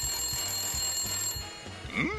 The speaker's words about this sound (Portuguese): Peraí, telefone, eu já volto.